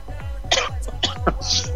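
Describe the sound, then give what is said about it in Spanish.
A person coughs a few times in short, rough bursts spaced unevenly across roughly a second, with low background hum between them. “Perdón, andamos con la tos todavía.”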